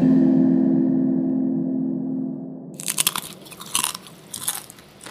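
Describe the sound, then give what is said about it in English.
Crisp crunching of a chip being bitten and chewed while eating, a few sharp, loud bursts of crunch that follow a steady low hum. “I'm turning my chip around before I double dip it. That's the crunching sound”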